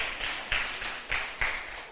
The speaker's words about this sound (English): Okay, let's give a big hand clap to our children.